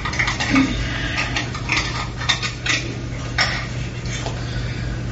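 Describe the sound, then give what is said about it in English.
Lid coming off the box of a radio dongle and converter board setup, heard as a few light metallic clinks and rattles over a steady low hum. “and it comes out of this end and goes to the dongle. So inside, take the lid off.”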